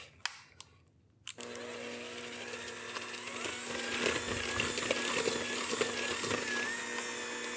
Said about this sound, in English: So we're going to cream the butter sugar with the lemon rind.